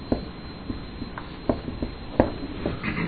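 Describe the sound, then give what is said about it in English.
Writing by hand during a lesson on segments and page tables: a few short, faint scratching strokes and taps at irregular intervals over a quiet background. “Okay, so I'm going to write this here.”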